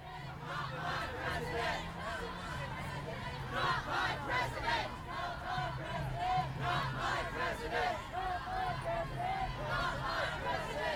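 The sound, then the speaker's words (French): An anti-Trump street protest crowd in Portland, United States, with many women's voices shouting and calling over a dense, continuous babble that stays at a steady level throughout. “On était plutôt à Portland, aux États-Unis, avec une manifestation anti-Trump, où on pouvait très clairement entendre la forte présence de femmes dans l'espace public.”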